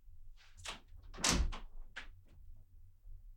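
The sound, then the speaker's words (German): A window being shut indoors: faint scuffs and clicks, then a firmer thud as it closes, with a few softer knocks and rattles after it, all quiet. “Moment, ich muss kurz das Fenster zumachen.”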